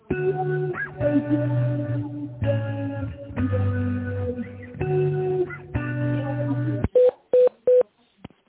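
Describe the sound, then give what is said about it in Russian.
Touch-tone dialing of a phone extension number: a few short, clipped beeps in quick succession, coming after several seconds of sustained, buzzy tones on the line. “наберите добавочный номер в тональном режиме или дождитесь ответа специалиста.”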